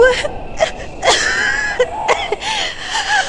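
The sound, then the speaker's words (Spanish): Wheezing from a child during an asthma attack: several strained, whistling breaths with high tonal squeaks and breathy rasps, fairly loud and uneven in rhythm. “No puede respirar. Trae la pistola del asma y ponga hervir agua en la tetera.”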